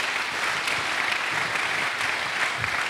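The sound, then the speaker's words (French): A church audience applauds with steady, dense clapping that continues evenly throughout, with no voices over it. “Tu peux acclamer le Seigneur pour ses privilèges.”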